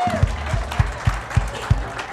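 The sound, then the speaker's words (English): A church audience claps along in unison to a steady beat, with about six evenly spaced, fairly loud claps and some faint sound underneath. “You can clap to that one.”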